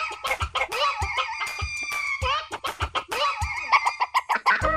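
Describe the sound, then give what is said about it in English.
A rooster crows with harmonic, wavering calls that rise and fall, among a busy run of clucks and short sharp clicks. No one speaks. “I'm Martha Norwalk, and oh, there's that rooster crowing.”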